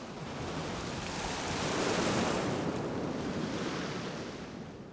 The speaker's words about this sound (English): Waves crash over a rock on a sandy beach.